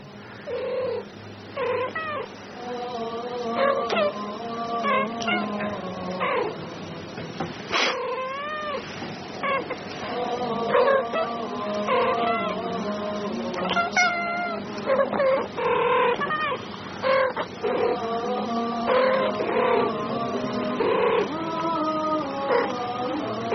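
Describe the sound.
Two cats meowing and yowling back and forth, many drawn-out, wavering calls that shift in pitch and continue throughout.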